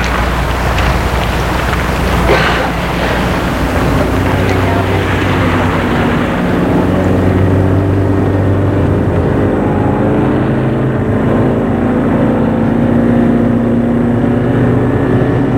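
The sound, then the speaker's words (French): A taxi pulls away and drives through a sleeping city, a loud, unbroken engine and road rumble with a broad hiss that holds steady from start to finish. “Et le taxi démarre.”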